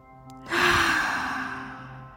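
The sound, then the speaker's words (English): A deep breath out during a breathwork and humming energy practice: a single breathy rush that swells quickly, then fades slowly over about two seconds above a soft, steady musical drone. “And breathe out completely. Next, one more deep, deep breath.”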